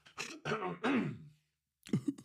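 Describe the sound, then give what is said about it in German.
Someone clears their throat in a few rough, voiced rasps, then a short silence and another brief throaty burst. “muss man mich ganz kurz nochmal räuspern.”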